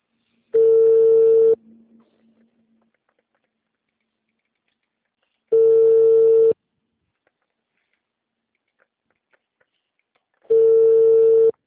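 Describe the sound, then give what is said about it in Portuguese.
Ringback tone of a telephone call being placed: three long, steady electronic beeps, each about a second long, spaced evenly about five seconds apart with silence between them. “Tô tentando ligar pro Rodrigo.”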